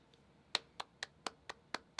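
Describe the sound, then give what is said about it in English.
Hands clapping: seven sharp, evenly spaced claps at roughly four per second follow a faint first tap. The claps are quiet and dry, with no crowd around them. “applause, clapping. The sound of hands clapping is a cultural example, a cultural expression of approval, agreement, desire to let something be,”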